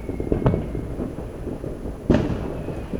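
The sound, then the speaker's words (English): Screamer fireworks go off in the distance. A few sharp pops and booms stand out over a low background rumble, with the strongest burst coming later. “Oh, got a screamer off in the distance. Oh, you hear that?”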